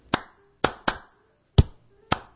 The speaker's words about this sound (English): that's what the clapping was all about